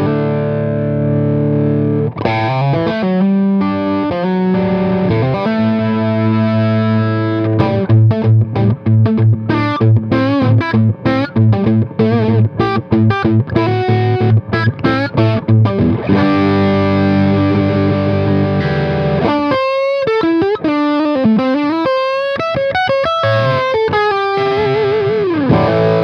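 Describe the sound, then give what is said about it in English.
A 1956 electric guitar plays through distortion and effects, strumming loud sustained chords and fast rhythmic stabs, then shifting to bent single-note lead lines with vibrato near the end. “you'll notice how much darker this guitar sounds than the new one, of course.”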